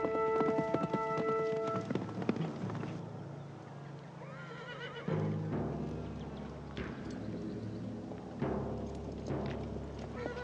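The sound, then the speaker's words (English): A horse gallops across the desert at the foot of the mountains, its hoofbeats pounding steadily alongside whinnying and neighing, with tonal notes early on and no talk. “In the daylight, Beth gallops across the desert at the foot of the mountains.”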